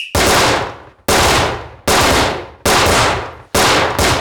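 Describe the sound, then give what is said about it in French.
Several gunshots fired one after another during a close-range contact shooting drill at 5 meters on a firing range. Each loud, sharp crack trails into a long decaying tail before the next shot, at roughly one-second intervals. “Mettez-vous à 5 mètres pour un tir de contact à 5 cartouches.”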